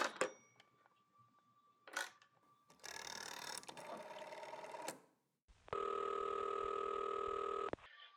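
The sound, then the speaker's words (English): A rotary telephone is dialed: a few sharp clicks, then a rasping whir of the dial turning and returning, followed by a loud, steady telephone tone held for about two seconds. “Operator, I've been dialing Murray Hill 70093 now for the last three quarters of an hour, and the line is always busy.”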